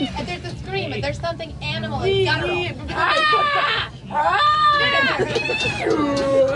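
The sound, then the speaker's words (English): A human voice imitates a car's screaming, guttural, animal-like noise, with several long wailing bursts that sweep up and down in pitch, loud and strained throughout. “It's making this noise. It's like this. And then when you go around the corner, and there's a scream, and there's something animal and”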